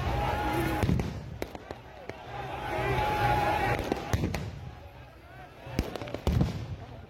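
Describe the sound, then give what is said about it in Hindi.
Tear gas shells are fired at a farmers' protest at Shambhu border. There are several sharp, loud bangs at irregular intervals over a continuous bed of outdoor noise and indistinct voices. “यह Shambhu border का video है, जिस तरह से आंसू gas के गोले दागे जा रहे हैं”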